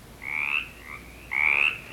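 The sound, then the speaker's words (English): A mountain chorus frog calls alone in two loud, raspy, dull trills, with a fainter note between them. “Whereas the mountain chorus frog,”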